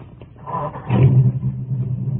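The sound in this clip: Car engine as the car drives off: a low, quiet rumble swells into a steady, deeper roar partway through and stays loud to the end.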